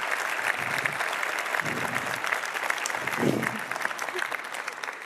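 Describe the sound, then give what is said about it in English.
An audience applauds after a presentation, with dense, steady clapping that holds at an even level throughout and a few brief low voice sounds beneath it. “Come on, you can do another applause.”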